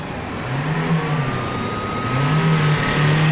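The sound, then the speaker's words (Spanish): A car engine hums as the car pulls up in a hurried getaway, a steady mid-pitched drone with light revving that dips slightly and then recovers, fairly loud throughout. “llega con el coche”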